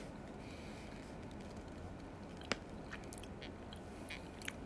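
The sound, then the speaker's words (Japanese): Chewing on a firm gummy candy with a jelly filling: quiet, soft squishing bites with a couple of sharper crunchy clicks, heard alone. “硬めのグミと、この中のジュレが相まって、いい感じです。”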